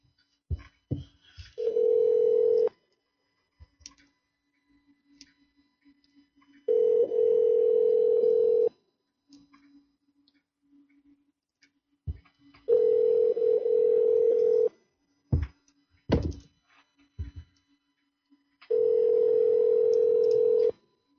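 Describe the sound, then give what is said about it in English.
Telephone line tones on a call being placed: four steady, evenly spaced tones of about two seconds each, separated by quiet gaps, with a few short sharp clicks between them. “Calling right back.”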